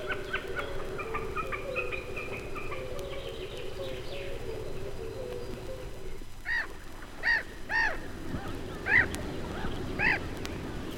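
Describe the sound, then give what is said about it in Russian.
Common snipe calls: after a stretch of steady low background noise, several short, sharp, rasping notes ring out at irregular intervals, each fairly loud and clearly separated. “А это голос бекаса.”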